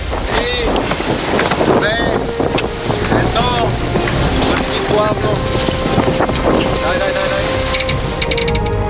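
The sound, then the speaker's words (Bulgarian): A sailboat under way at sea in wind on a passage from Varna to Burgas after a sailing race makes loud, continuous rushing wind and water noise, with a voice talking over it. “Ветроходното състезание приключи и ние поемаме на едно много приятно плаване от Варна към Бургас, 55 мили, в изключително приятна среда.”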